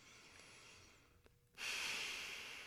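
A deep breath taken during a relaxation and visualization exercise: after a faint steady hiss and a brief click, a loud breathy rush begins partway through and carries on to the end.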